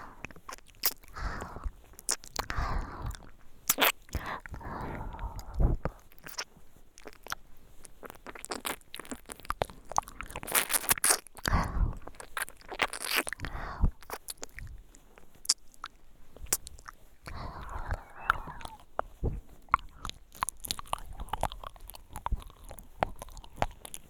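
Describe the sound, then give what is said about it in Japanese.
Licking and tasting food up close: quiet, wet mouth sounds of smacking, lapping and soft slurps, coming in irregular bursts with short pauses between them. “このままペロペロもしてお味も味わう。”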